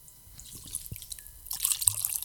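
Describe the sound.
Water being poured to fill a container, starting with scattered drips and small trickles, then growing into a louder, steadier splashing pour in the second half.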